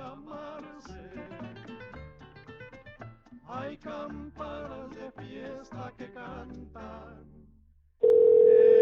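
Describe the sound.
A telephone line tone before an automated message: a single loud, steady electronic note that cuts in sharply near the end and holds for about a second.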